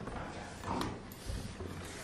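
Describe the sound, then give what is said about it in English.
A chair is pulled up during a meeting, giving a couple of short creaking, scraping knocks over a low room murmur. “Come in, come in. If you don't mind pulling the chair up quick”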